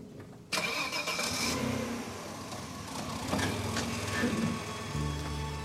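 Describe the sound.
A car pulls away: its engine kicks in abruptly and runs on with a steady mid-pitched hum and light rattling, swelling briefly louder partway through.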